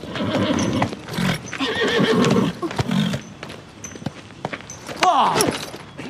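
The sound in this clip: A horse neighs loudly in a long whinny that falls in pitch near the end. Busy hoof clip-clops and thumps run under it throughout.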